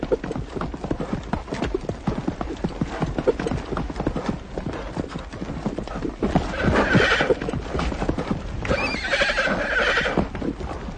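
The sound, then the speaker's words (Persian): A horse gallops with fast, continuous drumming hoofbeats throughout, and loud whinnying neighs rise twice over the pounding rhythm in the second half. “شب شده. عبدالله همچنان در حال تاخت است.”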